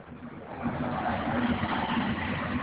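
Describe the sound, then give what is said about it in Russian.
A football stadium crowd fills the air with a steady, muffled roar during a match, growing louder after the first half-second and holding as an even wash of massed voices. “Я даю вам послушать стадион.”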